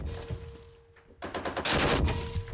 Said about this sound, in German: Weiter schießen. Okay, gut gemacht. Noch eine Salve, dann ist gut.